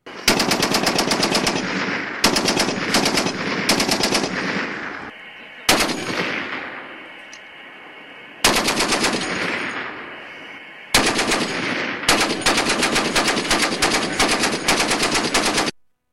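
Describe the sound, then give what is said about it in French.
Gunfire from a military shooting practice session: several long, loud bursts of rapid automatic fire, each with a lingering decaying tail, separated by short pauses. “Le capitaine a tenu à nous faire écouter des extraits enregistrés d'une séance d'entraînement au tir.”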